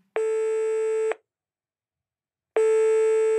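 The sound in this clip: Telephone ringback tone as a call to someone's mother goes through: two long, steady electronic tones, each about a second long, separated by a longer silence.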